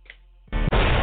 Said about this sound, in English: We dropping bombs over here.